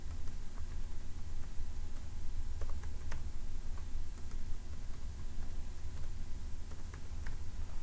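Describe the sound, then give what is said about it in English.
Typing a password and user ID on a computer keyboard to set up a system administrator login for a new database server: many soft, irregular key clicks over a steady background hiss. “Now I'm going to give myself a system administrator login. So I'll type in my password and user ID.”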